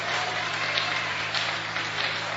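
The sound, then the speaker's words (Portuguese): A church audience claps hands for Jesus during a worship service, a faint, even patter of many hands that runs steadily without clear breaks. “O Senhor me pode bater mais forte essas palmas para Jesus.”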